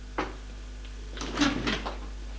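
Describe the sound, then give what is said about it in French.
An apartment door is closed: a sharp click, a brief lull, then a short cluster of knocks and rattles as it shuts, fairly faint over a low steady hum. “Ferme la porte.”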